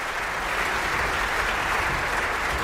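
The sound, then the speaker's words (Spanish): Dense, sustained audience applause at an opera festival in Bayreuth, honouring the performers and the orchestra. It forms a loud, even wash of many hands clapping with no talk over it. “So ein Applaus bekommen hier in Bayreuth Publikumslieblinge”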